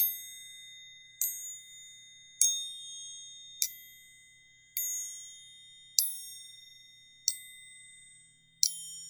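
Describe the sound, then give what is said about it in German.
A triangle struck seven times at an even, unhurried pace, each bright metallic ding ringing with a high shimmering tone that fades slowly before the next strike, against otherwise quiet surroundings. “Was du gerade gehört hast, ist eine Triangel. Ich spiele mal nur mal ein paar Mal.”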